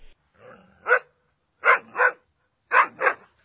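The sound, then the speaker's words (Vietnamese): Loud barking from a black dog that leaps up from lying curled under a wooden plank bed in a house at night. There are five sharp, loud barks, the last four in two close pairs, with a softer growl-like sound before the first. “Thình lình, con chó mực đương nằm khoanh dưới ván, vùng chạy ra, sủa vang rân.”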